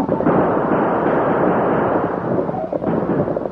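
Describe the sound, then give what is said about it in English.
Gunfire rings out as guns are fired during an attack on a covered wagon on the plain. It is loud and dense, with many shots blurring into a continuous, booming volley. “Use your gun, Tonto”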